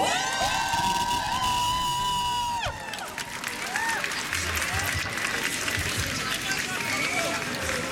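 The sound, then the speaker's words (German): A crowd cheers and shouts at a school students' strike protest against conscription, with high whoops and whistles early on over steady clapping and a dense, continuous roar of voices. “Mach mal bitte sehr viel Lärm für die.”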